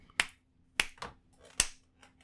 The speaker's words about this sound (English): Clap sync.